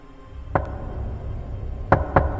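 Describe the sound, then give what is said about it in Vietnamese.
Knocking on a door at night: four sharp wooden raps, a single knock followed by a pause and then three quicker knocks, set against a faint low background hum. “Anh ngồi dậy lắng tai nghe. Đúng là tiếng gõ cửa thật.”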